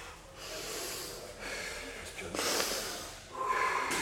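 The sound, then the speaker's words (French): Heavy, forceful breathing and snorting from a boxer during training, with a few sharp, noisy exhalation bursts spaced roughly a second apart over a low background. “Respire. Les mains derrière. respire, respire.”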